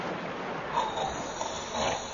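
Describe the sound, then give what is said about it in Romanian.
A sleeping ship's captain snores, a few rough snorting breaths rising and falling over a low, steady hiss, with no talking. “Dar capitanul nici măcar n-a trezărit. Dormea și sforăia cumplit.”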